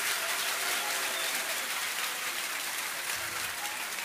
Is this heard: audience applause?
yes